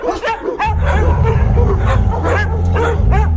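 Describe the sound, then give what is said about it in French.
A stray dog that had been lying curled on a street pavement barks repeatedly, with many short, yelping barks over a steady low hum. “C'est un chien couché là, roulé en boule sur le pavé. L'animal se dresse paresseusement sur ses pattes maigres et aboie en direction de Paul”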